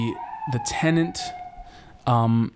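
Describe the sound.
A police car siren wails as a steady, high, slightly wavering tone that runs beneath ongoing voiced talk through the whole clip.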